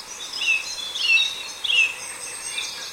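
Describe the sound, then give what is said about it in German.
A song thrush sings high, clear phrases, repeating the same short motif several times in quick succession over a soft steady hiss. The repeated phrases are moderately loud and stand out clearly from the quiet background. “Und im Hintergrund die Singdrossel, auch schön laut. Und das ist die, die ihre Motive so immer ein paar Mal hintereinander wiederholt.”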